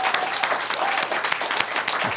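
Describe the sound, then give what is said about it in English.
Dense, steady applause from a live audience at the WNRN Holiday Showcase concert. The clapping runs continuously through the short clip with no break. “How about another round of applause for Justin?”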